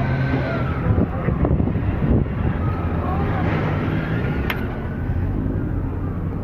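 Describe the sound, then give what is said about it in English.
Tanks and armored vehicles pulling out make a steady, heavy engine rumble. Wind buffets the microphone the whole time. “There are tanks. There they go. Those must be the armored vehicles. They have an assault rifle. They're pulling out.”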